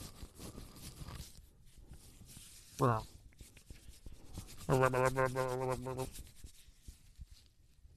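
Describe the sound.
Scratchy, close-miked rubbing of cold bare feet against a man's beard, a steady dry brushing texture that continues throughout, broken twice by short voiced vocal sounds.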